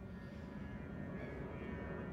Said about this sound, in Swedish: nu kommer ett flygplan